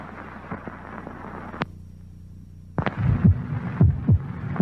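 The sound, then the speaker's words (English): Human heartbeat: low, soft lub-dub thumps in a few paired beats at a steady rhythm, coming after a faint stretch of hiss that ends with a sharp click. “This is the sound of a human heart. It will beat 72 times in this minute.”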